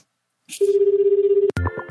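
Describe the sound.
A telephone call rings out while the caller waits for voicemail: one sustained, rapidly pulsing ringback tone lasts about a second, then a sharp click and a short clatter cut it off.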